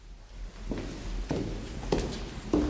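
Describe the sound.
Footsteps climb the stairs of an apartment block stairwell: four distinct, fairly heavy steps in an even rhythm over low background noise.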